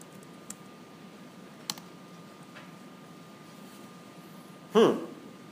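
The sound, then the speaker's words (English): A few sparse keystrokes on a computer keyboard: faint isolated clicks spread over several seconds, ending with one louder, sharper clack. “Now let's go here and type.”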